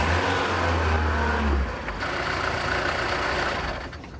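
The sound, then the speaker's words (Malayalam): A bus engine runs as a loud, low rumble that drops off abruptly partway through as the bus suddenly stops, leaving a quieter engine hum running to the end. “അയ്യോ, വണ്ടി പെട്ടെന്ന് നിന്നല്ലോ, എന്ത് പറ്റിയോ? Conductor, എന്താ വണ്ടി നിന്നത്?”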